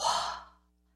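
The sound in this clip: A voice imitates the last exhaled breath of a dying person: a single soft, breathy outward sigh that swells briefly and fades to silence within half a second.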